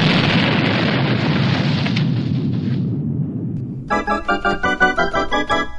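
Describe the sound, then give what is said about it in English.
A bomb explosion bursts into a loud, dense rumbling roar that holds for about three seconds and then fades, followed by a run of bright, rhythmic tonal pulses. “The bombs go off in 10 seconds.”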